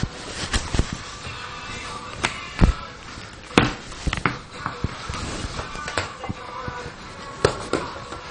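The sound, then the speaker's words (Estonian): A ball rolling and bouncing during play, heard as scattered irregular thumps and knocks over a quiet, rustling background. “Pall teeb, pall veereb, on nii või? Veereb.”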